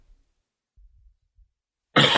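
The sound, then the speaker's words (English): A single sharp cough to clear the throat bursts out loudly at the very end, after near silence broken only by a few faint low rumbles. “Sorry, I got frog in my throat.”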